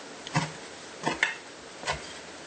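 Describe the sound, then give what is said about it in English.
Knife chops on a cutting board as folded fresh basil leaves are chopped: a few sparse, dull knocks separated by short pauses, with no voices. “So I'm going to fold that up and start chopping that up.”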